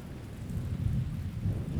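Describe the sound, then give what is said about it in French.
Rain begins to fall as a steady, dense hiss of drops over a low rumble, swelling slightly and holding for under two seconds without voices. “puis jusqu'à la maison, la pluie se met à tomber.”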